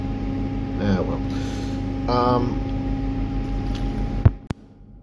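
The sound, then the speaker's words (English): An office refrigerator makes odd noises over a steady electrical hum, with a few warbling bursts and sharp clicks near the end. “But refrigerator in my office is making weird noises.”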